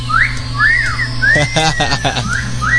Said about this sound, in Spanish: Que sí, por acá, por favor, un silbido acá en producción, por favor.